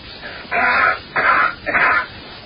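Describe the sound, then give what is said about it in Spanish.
A man coughs on Mars: three harsh, breathy bursts in quick succession, each about half a second long, with short gaps between and no talk. “Fíjate cómo tose.”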